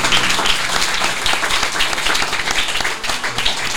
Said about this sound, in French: est-ce que tu pourrais s'il te plaît me laisser demander à tout le monde d'applaudir Claire Keim?